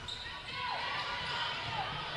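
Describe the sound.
Basketball dribbled during a girls' game: low, bouncing thuds repeat under a commentator's talking.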